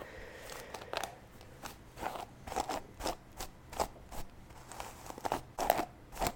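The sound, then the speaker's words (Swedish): Hair being handled and pulled, giving crisp, crunchy rustles like hair being torn; many short crackling bursts in a loose, fairly regular rhythm, moderately loud, with no talk. “det här kanske inte låter nice. Det kanske bara låter som att jag typ river av mitt hår.”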